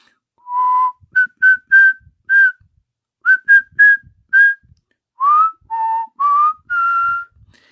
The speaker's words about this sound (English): and Adiat asked the birdie why he was whistling.